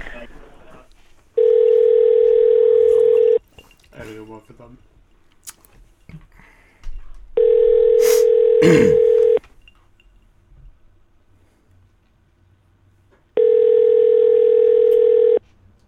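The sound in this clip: Telephone tones while calling a brewing company's phone menu: three long, steady electronic tones separated by quieter gaps, with a brief rapid burst of touch-tone-like beeps between the first two.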